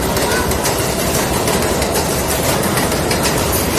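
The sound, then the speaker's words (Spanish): A New York subway train makes a loud, continuous rumble mixed with dense rattling and clattering. The noise stays steady and unbroken, with no pauses. “Vámonos al metro de Nueva York.”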